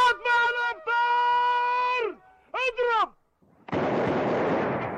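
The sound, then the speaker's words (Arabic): The Ramadan iftar cannon fires at sunset, one loud, rough burst of noise sustained for over a second. It follows several drawn-out, wavering tonal calls separated by short pauses. “لحظات وينطلق مدفع الإفطار.”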